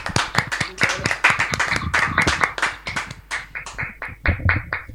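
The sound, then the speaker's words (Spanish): Applause from a small group of people: a brisk, irregular patter of hand claps, dense at first and then thinning into scattered individual claps over about five seconds. “tenemos aplausos ahí también”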